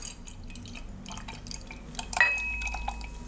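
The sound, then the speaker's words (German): A cool drink being poured, with a faint, sparse trickle and a few light drips that grow into a steadier, slightly louder flow of liquid toward the end. “Also da fließt das kühle Nass, sehr, sehr schön.”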